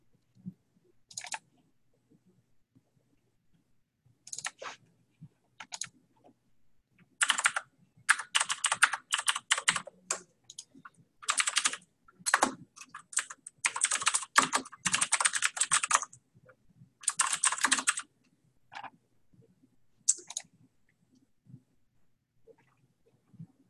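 Typing on a computer keyboard while new agent account details are entered: bursts of rapid, crisp key clicks, sparse at first, then dense runs separated by short pauses, with no talk.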